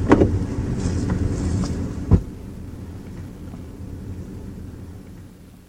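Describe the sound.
A car being driven off: a low, rumbling engine drone with one sharp thump partway through, after which the sound drops to a quieter steady hum that fades out. No voices.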